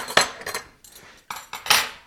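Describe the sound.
A metal spoon clinks against a dish of fish moqueca stew in several short, bright taps and scrapes at irregular intervals, with brief pauses between them.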